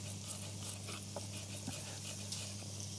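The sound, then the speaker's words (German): Sliced garlic sizzles faintly in a hot pan with onions, a soft, even hiss with tiny crackles and no talk over it. “Und man hört das schon leicht schmürgeln. Geben wir gleich von Anfang an mit dazu.”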